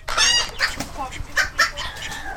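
A rooster crows at a poultry show, giving a harsh, harmonic-rich call followed by several short clucks and squawks in quick succession.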